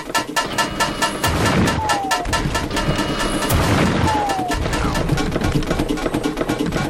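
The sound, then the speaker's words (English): Cannon fire in a video game: a dense, loud barrage of rapid booming blasts that continues without a break, with a rumbling undertone beneath. “So, there's the cannon. That tells you it's about to fire. So what I'm going to do, I'm going to wait for it to come again. And here we go.”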